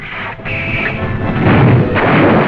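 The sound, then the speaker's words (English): Artillery guns fire a barrage of exploding shells over a town and airfield in wartime. A loud, dense, continuous rumble of blasts merges together without clearly separate shots. “Our guns open up with a devastating barrage, plowing a path of exploding shells over the town and airfield.”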